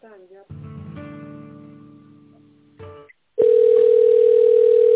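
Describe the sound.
Telephone tones while a call is being transferred: a few seconds of softer, humming harmonic tones, a short gap, then a loud, steady single-pitched tone that holds unbroken to the end.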